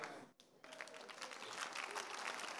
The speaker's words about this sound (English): can you give me a second before you clap very well?